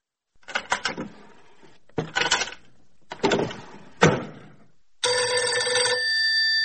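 A telephone bell rings as a general calls an officer: a few short clattering bursts of ringing, then one longer, steady ring that carries on to the end, with no voices.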